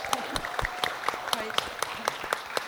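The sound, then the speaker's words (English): Audience applause comes as scattered, sparse clapping, a loose run of sharp individual claps over some speech. “I think they deserve an extra round of applause”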